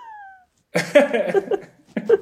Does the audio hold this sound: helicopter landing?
no

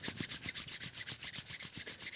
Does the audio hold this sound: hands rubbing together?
yes

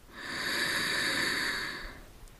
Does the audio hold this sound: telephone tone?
no

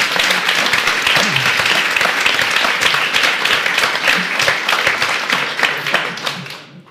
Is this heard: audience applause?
yes

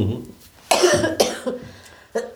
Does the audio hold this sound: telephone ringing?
no

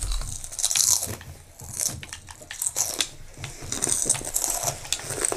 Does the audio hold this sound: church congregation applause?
no

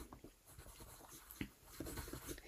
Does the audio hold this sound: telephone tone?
no

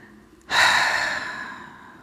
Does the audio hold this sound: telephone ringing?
no

